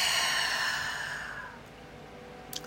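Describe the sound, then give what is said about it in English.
A single deep breath is exhaled slowly as a long, soft, breathy whoosh that fades away over about a second and a half, with no talking over it. “Let's take one final deep breath here. And exhale.”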